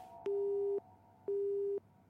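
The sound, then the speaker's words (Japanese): A telephone busy tone plays after a call is disconnected: two faint, evenly spaced beeps of steady mid pitch, each about half a second long, separated by a short gap. “電話は切れてしまいました。”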